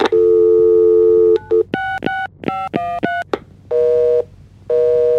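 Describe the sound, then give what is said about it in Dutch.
Telephone tones before a voicemail recording: a long steady tone, a short blip, a quick run of touch-tone dialing beeps, then two sustained tones separated by a pause. “Wij geven jou nu de kans om bij één docent een berichtje in te spreken na de biep.”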